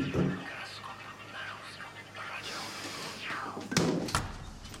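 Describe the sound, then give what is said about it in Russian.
Knocking on a door comes as two sharp, close thuds near the end, after a stretch of low, muffled background noise. “Стук в дверь.”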